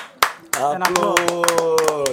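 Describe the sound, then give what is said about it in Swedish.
A small group claps to welcome a guest. Sharp, irregular claps continue under a voice that talks and exclaims over them. “Applåd.”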